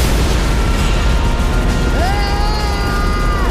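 Artillery fire and explosions during the 1945 Berlin offensive merge into a continuous, loud, deep rumble with dense low-end booming and no distinct gaps between blasts.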